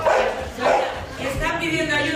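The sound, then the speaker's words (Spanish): A Golden Retriever therapy dog barks and yips at a residence for the elderly. Short, repeated bursts sound under and between people talking. “es un Golden Retriever educado como perro de terapia”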